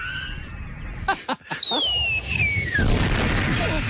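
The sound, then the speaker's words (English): A bomb exploding: a few short sharp thuds give way to a long falling whistle, then a loud, broad rumbling blast that lingers to the end. “Why are things exploding? Oh, because it's like the bomb.”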